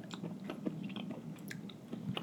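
Chewing on a large lump of brown sugar produces many small, crisp crunches in a quiet, irregular rhythm, with no talking.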